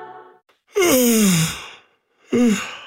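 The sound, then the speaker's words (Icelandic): A long, drawn-out human yawn glides down in pitch and fades into a breathy exhale. After a pause, a shorter second yawning breath follows. “Ef þú geispaðir líka, þá gæti verið sniðugt að opna gluggan aðeins.”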